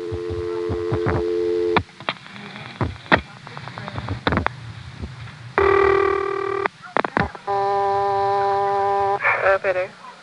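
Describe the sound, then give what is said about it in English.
A 1973 telephone exchange answers a dialled 0 with sharp switching clicks and rapid pulse trains. Steady buzzing tones follow, then bright multi-pitched tone bursts before the line drops out. “Here's a recording from 1973 of dialing 0. You'll notice it doesn't wait for any more digits because 0 plus dialing hasn't been implemented yet. Instead, it just dials an 8 and drops out.”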